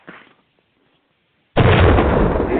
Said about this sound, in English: I like that. Drop a bomb. Yeah. Drop a bomb.